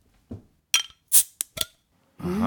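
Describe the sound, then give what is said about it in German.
A bottle of Witchwood King Goblin beer being opened: a few sharp glassy clinks and taps at the cap, then a steady rushing hiss at the end. “Dann hast du jetzt Angst und wir machen dieses Bier auf. Hier kommt das Geröff vom Witchwood King Goblin.”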